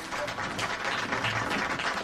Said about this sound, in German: Sie klatschen, wenn der Richter erscheint.